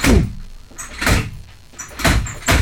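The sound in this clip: A wooden chair banged as a rhythm at a party in La Boca: four heavy, booming thumps, the first three about a second apart, the last following quickly after the third.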